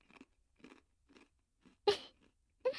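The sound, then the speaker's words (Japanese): Crunchy chewing from someone eating quickly: a few soft bites, then two louder, sharper crunches, each a short burst with pauses between and no talking. “そんなに急いで食べたら、お腹壊しちゃうの？そんなに夢中になっちゃうぐらい美味しいの？”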